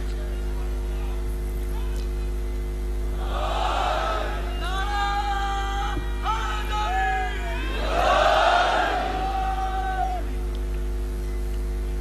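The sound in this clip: A crowd chants a slogan in two loud, drawn-out bursts of massed voices. The first comes near the middle and a stronger one follows later, both over a constant low electrical hum.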